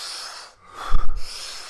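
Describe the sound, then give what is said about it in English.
A deep breath taken in through the mouth and a small puff out, part of a rapid breathing exercise done sitting upright; a short, fairly loud rush of breathy air with no talk. “Big breath in, small puff out, big breath in, small puff out.”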